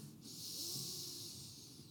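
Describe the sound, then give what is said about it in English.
A slow, deliberate breath in: a faint, steady airy hiss that begins after a short pause and holds evenly for well over a second, very quiet and with no words. “I invite you to breathe in”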